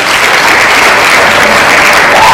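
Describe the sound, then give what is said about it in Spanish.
Canned applause sound effect played on request, a loud, continuous wash of many hands clapping at an even level, with no voices. “¿Aquí no hay aplausos? No tenemos público, don Florentino. Pues aunque seamos de esos de lata. Niño, ponme unos aplausos.”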